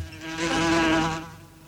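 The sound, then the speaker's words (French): A housefly buzzes in a studio, a droning, rasping whine that swells up, holds for about a second and then fades away, with no talk. “Putain, mais c'est quoi ce cirque? Oh putain, la mouche, ta gueule.”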